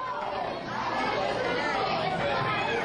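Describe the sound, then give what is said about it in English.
Lunchtime chatter of about 100 third and fifth graders eating in a school cafeteria: a dense, steady babble of many young voices talking at once, with no single speaker standing out. “Such a familiar noise. For many of us, it's probably far removed, but that's the sound of about 100 third and fifth graders eating lunch at school.”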